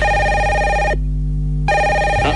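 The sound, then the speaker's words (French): A telephone rings with a bright, steady electronic ringtone of layered tones. The upper notes drop out partway through while a lower hum continues, then the full ring returns. No one speaks. “En plus, il y a votre téléphone qui sonne.”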